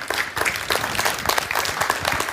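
An audience applauds to welcome panel members at an evening marriage ministry event. The clapping is steady and dense throughout.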